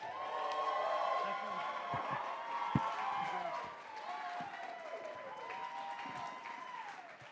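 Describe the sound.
Applause and cheering greet a speaker welcomed onstage at a Salt Lake City revival gathering. Dense, steady clapping with whoops holds at full strength for about three seconds, then eases slightly and continues.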